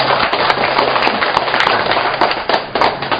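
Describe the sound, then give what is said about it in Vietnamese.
Applause from a church audience, a loud and dense crackle of many hands clapping with sharp, irregular bursts throughout and no speech over it. “Rồi cho một tràng pháo tay cho ta phía bên kia.”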